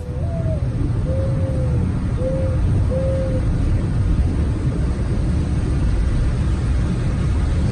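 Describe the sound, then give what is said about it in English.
A dove cooing outside a room, captured in a home recording: four soft, low, hooting coos in the first half, with the second one longest, over a constant hiss and rumble of background noise. “He said, no, that's a dove. So she recorded it for us. Let's see if you can hear it.”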